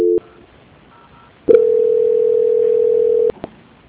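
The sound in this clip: Telephone line tones during a call transfer: a brief beep and a quiet hiss, then a loud, steady, flat tone lasting nearly two seconds that cuts off with a couple of clicks.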